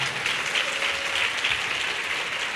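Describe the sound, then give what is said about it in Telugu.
Steady, dense applause from a Christian church audience, clapping loudly and evenly throughout with no clear voices on top. “చపలు కొడతారా గట్టిగా”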